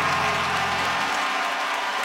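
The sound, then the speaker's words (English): An audience claps its hands in a thick, steady wash of applause that stays loud and even for the whole stretch. “Come on, clap your hands and say he turned it.”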